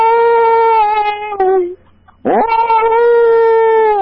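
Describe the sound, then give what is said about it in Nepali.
A person's voice imitates a dog howling. One long, wavering, harmonically rich howl dips at its end, then after a brief pause a second howl slides upward and holds steady. “सुरुमा चाहिँ कुकुरको कराउनु पर्यो। कुकुर चाहिँ यसरी रुन्छ”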